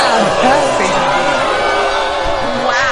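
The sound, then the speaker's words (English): A studio-audience crowd sound effect, a sustained, loud murmur of many overlapping voices with occasional louder shouts, holding steady throughout. “The audience is angry. What a big audience we have. Guys, calm in down. Studio. Yeah. In studio. Calm down.”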